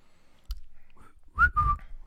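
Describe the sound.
A brief whistle, two short clear notes close together after a soft low thump, faint and alone with no talk.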